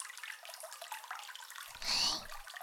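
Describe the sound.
Water rinsing hair, a faint soft splash and trickle over a quiet background hiss that briefly swells louder near the end before settling back.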